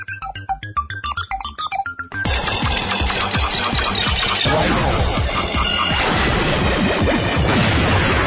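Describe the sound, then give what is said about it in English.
Video game effects as a ship hits and then shoots a moonrock: about two seconds of quick electronic bleeps, then a loud, dense, unbroken barrage of crunching blasts, crashes and rumbling noise until the end. “Yeah, I just hit that moonrock. But I shot it after, because you don't lose your side laser.”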